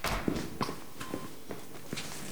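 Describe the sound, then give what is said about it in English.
An orderly and a man in a trucker hat walk into a room with a few soft, evenly spaced footsteps over a faint background hiss. “she stares at the door as the footsteps approach. As quickly as she sat up, she lays flat on her back as an orderly and a man in a trucker hat walk in.”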